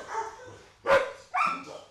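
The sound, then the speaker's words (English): Dogs barking inside a shelter with rows of metal cages, several adoptable dogs setting each other off at once. A few loud, sharp barks stand out from a rough, overlapping din. “The dogs all start barking at once when we walk inside.”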